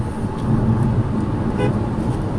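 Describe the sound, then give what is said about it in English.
A car horn gives a few short, faint toots at cyclists riding along the roadside in Texas. The brief tones sit over a steady, loud rumble of road and engine noise. “sorry, I had to honk at the missionaries.”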